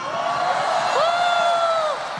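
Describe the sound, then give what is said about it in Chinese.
An audience cheers and whoops as a performer makes an entrance. The crowd noise is continuous, with rising, whistle-like whoops riding above it. “来吧，掌声欢迎我们的老乡周静元登场。”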